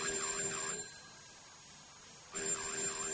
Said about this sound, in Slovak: Telefón znovu funguje. Ale nie. To je predsa zvonček na dverách.